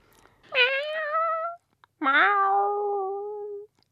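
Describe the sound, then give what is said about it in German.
A human voice imitates a cat meowing: two long, drawn-out meows separated by a short pause, each clear and nasal with strong overtones, with no other sounds. “Wie lange müssen Sie dafür üben, dass Sie die Katze so hinbekommen?”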